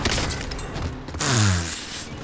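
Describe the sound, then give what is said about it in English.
Precision airstrike explosion in the video game Modern Warfare: continuous harsh, noisy game sound broken about midway by a loud, low rumbling boom that lingers. “Precision airstrike, come on!”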